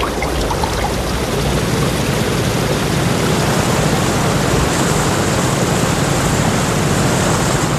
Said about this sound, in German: Die Strömung wird immer reißender.